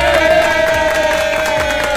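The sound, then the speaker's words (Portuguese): Crowd at the Farroupilha encampment cheering and clapping loudly and continuously, with a steady sustained tone running beneath the noise throughout. “Salva de palmas, produção!”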